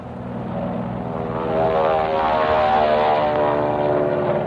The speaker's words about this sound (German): Am späten Nachmittag kommen Flugzeuge. Spitfire und Mustangs.